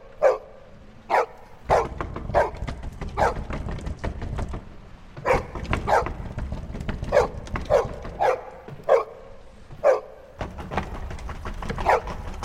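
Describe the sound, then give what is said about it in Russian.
A dog barks behind a front door, letting out many sharp, mid-pitched barks in an uneven rhythm over a steady low rumble. “После входной двери лает собака.”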